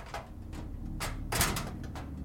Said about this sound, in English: Of course. Stuck. Why wouldn't it be when you're freaking out?